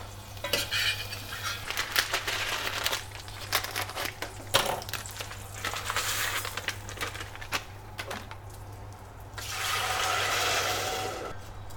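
Garlic sizzles in a frying pan as it is stirred, with scraping, clattering strokes in irregular bursts and a steadier frying hiss toward the end over a low hum.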